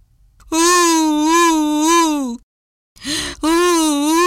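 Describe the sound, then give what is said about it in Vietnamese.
A voice imitating a crocodile's fake crying and begging: two long, loud, wavering wailing moans with a short sob between them. “Trông thấy bác nông dân đi tới, cá sấu bèn giả bộ khóc lóc van xin.”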